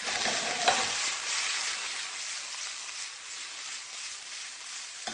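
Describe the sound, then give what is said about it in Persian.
Meat and caramelized onions frying in a pot give a steady, hissing sizzle, with a brief stirring scrape near the start. “گوشت کاملا داره پخته میشه، حرارت رو کم میکنیم. پیازمون که عسلی شده”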